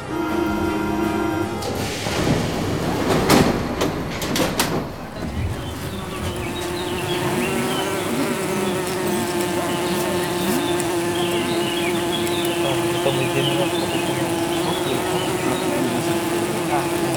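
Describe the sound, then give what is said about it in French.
Honeybees from two beehives buzz as the hives are moved by road, a dense, loud, continuous drone with a steady pitch, with some clattering knocks early on. “Je n'en dis pas plus, ouvrez les oreilles, les deux ruches de Beaulieu prennent la route.”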